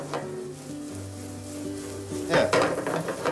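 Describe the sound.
Onion and carrot sautéing in a pan, the onion already lightly softened: a steady sizzling hiss runs throughout, and a louder burst of stirring and scraping comes near the end.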